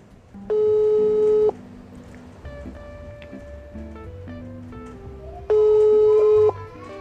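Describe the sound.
Ringback tone of an unanswered telephone call: two even, steady tone bursts about five seconds apart, each lasting roughly a second, over low background sounds.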